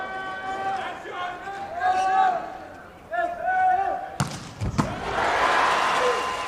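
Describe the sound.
Volleyball serve and rally in a Japan versus Iran match: a few sharp, loud ball strikes land in quick succession late on, set against a steady, loud crowd with voices that swell after the hits.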